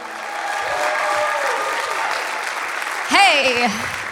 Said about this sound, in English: You heard the people applauding.